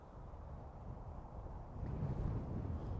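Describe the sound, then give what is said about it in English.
Strong seaside wind at Bridlington buffets the microphone with a low, rough rumble that swells louder in the final second. “Ooh, it's a rather nasty wind. I'm going to stand behind the castle.”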